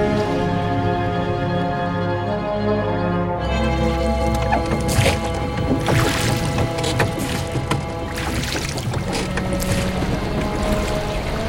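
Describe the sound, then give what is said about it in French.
Water splashes and sloshes as a rowboat is launched into the sea, the churning starting about a third of the way in and running on steadily to the end, over sustained droning tones. “Mettez tout de suite la chaloupe à la mer.”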